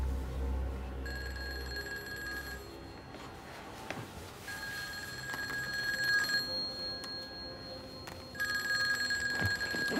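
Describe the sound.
A telephone rings in three separate bursts of bright, trilling bells with short silent gaps between them, fairly quiet over a low background hum and no voices.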